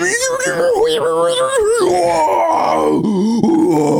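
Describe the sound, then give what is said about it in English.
A man imitates the strained groan of a gym-goer hauling himself up with heavy weight hung around his waist: a long, wavering, pitched moan that sags and quavers before rising again near the end. “there was a guy this morning just groaning the most hilarious groan, and he was doing something pretty hard, so I understand, but like, it was just like, he just like pulled himself up with a ton of weight around his waist”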